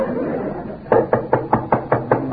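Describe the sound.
Knocking on a house door: seven evenly spaced, firm knocks in a steady rhythm over constant background hiss.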